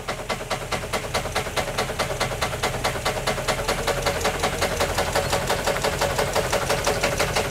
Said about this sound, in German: Achtung, wir schütteln! Gib mal ein bisschen Gas!